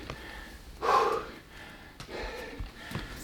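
Heavy breathing from a person catching their breath after a fifteen-minute workout: a few faint breaths, with one stronger exhale followed by softer breaths and short sniffs.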